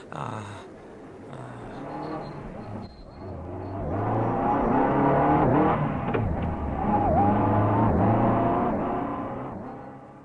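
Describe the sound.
A car engine drives in a radio drama scene after a road accident, as a passer-by rushes an injured man to hospital; a steady motor hum grows louder midway and holds, with its pitch shifting as it drives.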